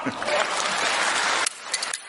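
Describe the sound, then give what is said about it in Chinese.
Dense audience applause at a live stage show with a host. It is loud and steady, then cuts off abruptly partway through, leaving a few scattered claps. “鼓掌的全都发大财，幸福好运滚滚来，掌声响起来。 不要停， 哎， 掌声继续，不要停。”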